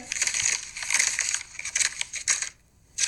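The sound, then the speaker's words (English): Paper tearing as a utility bill is ripped up: a quick series of harsh, rasping rips in short bursts, then a brief silent pause and one more tear at the end. “You ripping up our utility bill.”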